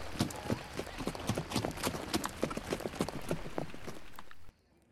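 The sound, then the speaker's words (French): A galloping horse sends out many quick, irregular hoof impacts over a dense rustling bed, fairly loud and continuous, before cutting off abruptly near the end. “vous retournez vers la cité sous les hurrahs de la ligne de défense, pour rejoindre au galop le palais du roi Syaxar.”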